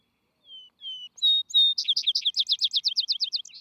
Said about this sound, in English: His song is most notable after sundown, when other birds are silent, for which reason he has been aptly called the Vesper Sparrow.